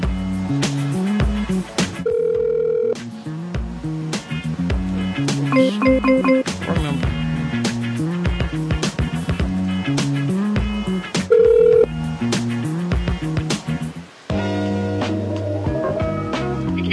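Telephone tones on a motel's phone line as a guest room is dialled, with a few short touch-tone beeps set among other steady electronic line tones across the call.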